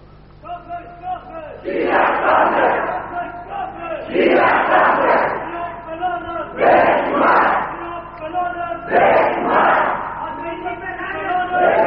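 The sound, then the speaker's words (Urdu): A large crowd chants the sectarian slogan "Kafir Kafir Shia Kafir" in four loud, evenly spaced roaring waves of massed voices, with short quieter gaps between them. “یہ مجھے خیال آیا کہ رب کے نزدیک بھی اس دور میں کافر کافر شیعہ کافر سے زیادہ پسندیدہ نعرہ کوئی نہیں ہے.”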